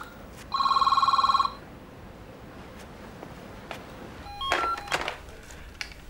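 A telephone rings in a Viennese coffeehouse: one loud, rapidly trilling electronic bell burst lasting about a second, set over low background hum. A few brief clicks and clatter follow after a pause.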